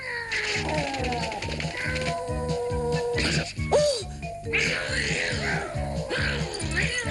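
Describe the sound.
A cat caterwauling, with long, drawn-out meows and wavering yowls that bend in pitch, heard over a steady rhythmic musical beat.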